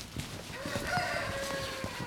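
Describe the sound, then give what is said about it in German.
A rooster crows once, a long drawn-out call lasting over a second that rises and then holds steady. It is moderately loud over a faint background with scattered soft clicks. “der Hahn mal wieder”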